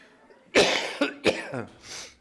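A few harsh, loud coughs burst out in quick succession, rough and explosive, with no talking around them.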